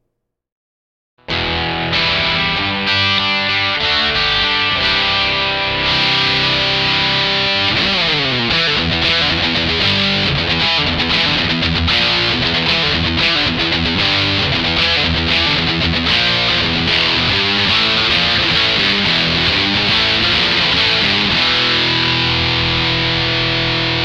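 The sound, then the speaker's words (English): Electric guitar run through an MD-2 Mega Distortion effect pedal plays loud, heavily saturated chords and riffs continuously for over twenty seconds after a brief silent start, with a thick, buzzing, sustained tone. “MD2 Mega Distortion.”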